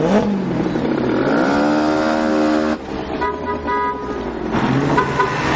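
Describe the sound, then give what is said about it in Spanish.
A car drives up and stops outside a bridal shop. The engine tone climbs in pitch at the start, then settles into a steadier running sound without any voices. “Luego, Murat va en coche y se detiene en la puerta de la tienda de trajes de novias donde trabaja su novia.”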